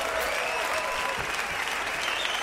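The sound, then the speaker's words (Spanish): Concert audience applause for the Cuban band Pupy y Los Que Son Son at a live show in the Netherlands in 2003: dense, steady clapping throughout. “Aplauso para ustedes que se lo merecen.”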